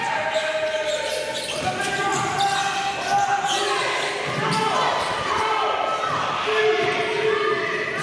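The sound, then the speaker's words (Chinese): A girls' basketball team trains on the first day of a trip to the Philippines. Many ball bounces thump across the court, mixed with high shoe squeaks and players' voices calling out. “球员在场上反复练习传球、运球与投篮，也在高强度训练中熟悉彼此的节奏。”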